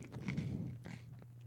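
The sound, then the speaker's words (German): A slice of toast is chewed with faint, soft crunching bites that continue through a short stretch without any talking. “Jetzt nimmst du dir die obere Scheibe Toast. Ja und dann isst man erst die Scheibe Toast. Also einfach die erste Scheibe erstmal ein bisschen essen.”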